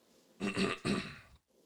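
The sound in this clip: A person clears their throat in two rough, guttural bursts, back to back. The second burst is slightly longer, and both are fairly faint and heard alone.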